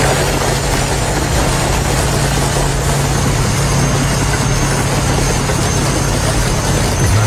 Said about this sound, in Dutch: Deze 200 scooters, korte metten zei ik al, werden letterlijk verpletterd door twee bulldozers. Dat klonk zo.